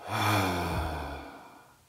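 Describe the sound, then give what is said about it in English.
A slow, deep exhale after a held breath during a guided meditation breathing exercise, a single soft breathy release with a faint voiced hum that gradually fades over about two seconds. “And then one more deep breath. Hold it and exhale.”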